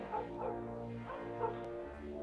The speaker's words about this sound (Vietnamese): ở ngoài đường tiếng chó sủa rộn ràng. Những con chó của các nhà xung quanh cứ tranh nhau sủa ầm ĩ.